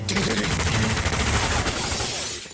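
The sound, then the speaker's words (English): Gunfire from a shootout scene in the film Once Upon a Time in Hollywood: a sustained, dense burst of rapid shots and crashing noise that runs loud and steady for over two seconds before cutting off. “Last night, we watched a Rick Dalton double feature. All the shooting.”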